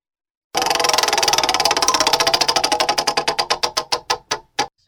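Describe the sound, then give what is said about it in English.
A prize wheel spins, its rapid clicks rattling quickly at first and then slowing steadily, the gaps widening until the wheel stops with a last few separate ticks. “The wheel spun. Spin it again”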